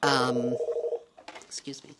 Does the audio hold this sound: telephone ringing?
yes

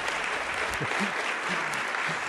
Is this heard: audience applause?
yes

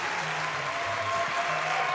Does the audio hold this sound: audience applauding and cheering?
yes

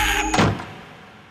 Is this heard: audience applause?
no

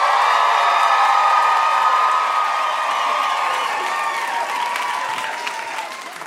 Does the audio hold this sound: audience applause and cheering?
yes

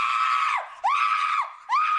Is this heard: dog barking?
no

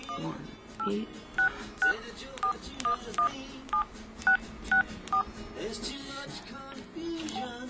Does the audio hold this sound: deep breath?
no

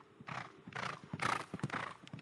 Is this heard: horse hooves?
yes

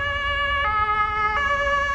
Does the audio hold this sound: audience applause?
no

